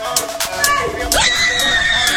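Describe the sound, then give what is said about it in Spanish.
A woman screams with excitement during a celebration by Argentine fans, a high-pitched shriek that rises and then holds over other voices and scattered noisy bursts. “Oh, lo que gritó. Estaba muy emocionada”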